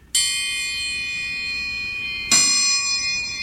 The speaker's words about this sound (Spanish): Y así suena el triángulo.